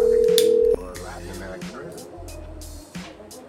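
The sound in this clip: A telephone dial tone hums after a caller hangs up, holding one steady pitch for under a second before cutting off abruptly, followed by a quieter stretch with people talking.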